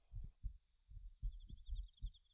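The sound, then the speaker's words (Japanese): Pounding, fast heartbeat of soft low thumps in a quick lub-dub rhythm, quiet throughout, with a steady faint high whine above it. “そういう私も、今結構ドキドキしてるんだけどね。”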